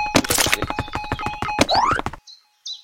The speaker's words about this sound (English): now I'm just shooting at everything.